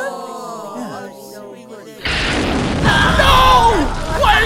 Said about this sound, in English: Exploding!